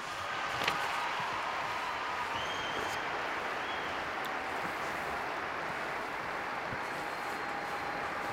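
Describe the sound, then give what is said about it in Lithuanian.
A large crowd applauds the Pope after his Easter address, a dense, even wash of clapping that carries on steadily and fairly faint for several seconds. “Popiežius baigė savo iš anksto paruoštą kalbą. Minios jį sveikina.”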